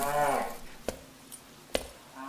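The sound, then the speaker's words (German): Cattle mooing in a dim barn, a low harmonic moo at the start that trails off. Two sharp knocks follow against a quiet background, and a faint tone rises at the end. “ich glaube, hier liegt noch ein Rind.”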